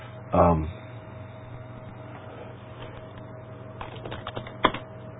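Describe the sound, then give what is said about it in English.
Typing on a computer keyboard: a few quick, faint keystrokes clustered near the end, with talking over them. “Oh, there's a place I'll type it up really quick like here.”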